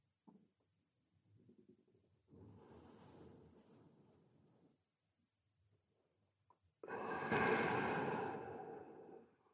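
Slow breathing during a guided breathing exercise: two long, airy breaths, the second louder and fuller than the first, separated by near-silence and a faint rustle.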